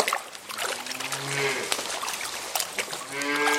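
A few low, drawn-out cow moos from a herd moving toward a river to cross it, heard over a steady, noisy outdoor background.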